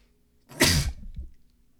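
A single sharp human sneeze, loud and brief, bursting out on its own with a short fading tail and no talk over it.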